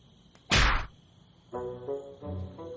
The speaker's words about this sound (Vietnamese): Sao ông đánh tôi?